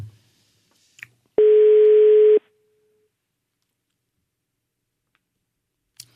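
A telephone ringing tone on an unanswered call in Italy: one steady mid-pitched tone lasting about a second, with silence around it and faint clicks before and after.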